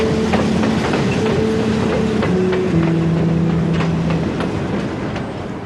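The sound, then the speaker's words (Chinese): A train departing from a station gives a loud, steady rumble with a droning motor whine and light rhythmic clicking of the wheels. No one speaks. “现在车开了，谢谢配合。”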